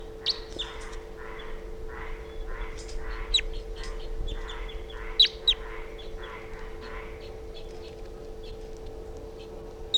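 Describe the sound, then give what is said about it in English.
A wild bird calling weakly: many faint, short notes repeated in a steady rhythm over a constant low hum, with a few sharper high chirps standing out. “Calling very weakly. Wild bird's flying now.”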